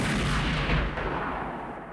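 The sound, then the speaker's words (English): Heavy gunfire tears through a violent shootout as one loud, dense roar with a booming low rumble, sustained rather than split into distinct shots and easing slightly toward the end. “but another guy shoots him. His wife gets shot.”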